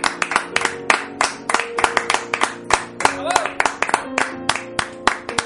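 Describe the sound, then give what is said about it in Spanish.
Applause for the end of the Wii U game console: steady, rhythmic clapping with many sharp claps in a quick, even pulse, mixed with sustained tonal sounds underneath. “Un aplauso, por favor, para la Wii U.”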